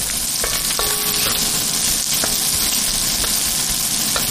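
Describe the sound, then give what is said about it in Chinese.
Loud, steady sizzling of porcini mushrooms stir-fried in a hot wok with chopped cured pork, dried chilies, green Sichuan pepper, plenty of garlic and lard, with occasional scrapes and clinks of stirring over the continuous hiss. “热锅煸炒，再倒入牛肝菌，放入大量的蒜”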